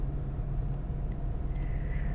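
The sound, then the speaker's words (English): Steady, low engine and road rumble inside a moving car, even and continuous throughout with no voices. “we like riding in the car, don't we?”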